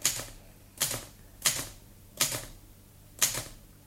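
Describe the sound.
Typewriter keystrokes as someone slowly learns to type: five sharp, bright clacks spaced unevenly, each with a short fading tail, separated by quiet pauses.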